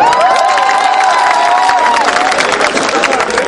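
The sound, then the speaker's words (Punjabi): Audience clapping and cheering at a live show: a loud wash of claps and crowd noise with a long, held shout from one voice riding over it before the cheering carries on. “ਮੈਨੂੰ ਲੱਗਦੀ ਹੈ ਇਸ ਸਦੀ ਦੀ ਸਭ ਤੋਂ ਵੱਡੀ ਖੋਜ ਹੈ ਯੂਟਿਊਬ ਦੇ ਨਾਂ ਤੇ ਕਿਤਾੜੀ ਮਾਰ ਲਓ।”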